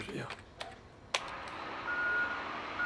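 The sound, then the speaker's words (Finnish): Reversing beeps from a garbage truck backing up under a window. A faint, steady high beep tone rises above rumbling background noise, after a few sharp knocks and clatters. “tuleekin jotakin jäteauto siihen ikkunan alle ja alkaa peruttaa, sit tulee se vittumainen ääni, se di siitä rekasta, niin sitten mä itse asiassa muuten nauhoitin sitä yksi päivä.”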